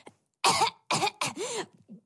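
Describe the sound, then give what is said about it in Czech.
Loud, deliberate coughing: a few sharp, throaty coughs in quick succession, each a strong burst separated by brief silences, with a small final huff at the end. “schválně nahlas zakašlal”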